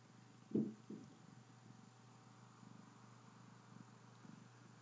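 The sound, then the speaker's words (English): A cat purring with a steady, rumbling, rhythmic pulse that keeps going at a low, fairly faint level, after a brief louder sound near the start. “This is the sound of the cat purring like a race car.”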